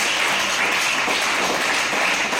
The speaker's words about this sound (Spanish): Pero hay que seguir echándole ganas. Un aplauso.